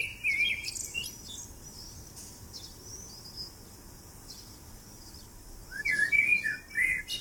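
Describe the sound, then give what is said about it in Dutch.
Blackbird song in a garden: bright, chirping phrases at the start and again near the end, with quieter calls in between. “Ik heb een merelgeluidje voor je klaargezet om het gesprek mee af te sluiten. Er zit ook een duif doorheen te tetteren trouwens.”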